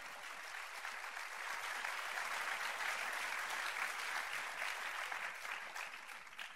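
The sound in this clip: Audience applause welcoming a storyteller to the stage, a steady, dense wash of many hands clapping that holds throughout at even loudness.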